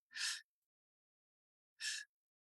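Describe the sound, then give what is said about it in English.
Two sharp, airy breaths separated by a pause of more than a second, demonstrating stacked breathing, where a deep breath is followed by a second breath stacked on top. Both breaths are short and moderately loud, with silence around them and no voices. “So stacked breathing means you take a big deep breath, pause, and then stack another breath on top of that and make your exhale much longer. So I'll demonstrate.”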